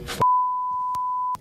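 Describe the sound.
Censorship bleep cutting off a word in a basketball discussion: a steady, high electronic tone held for just over a second, starting right after a voice is cut off, with faint clicks under it.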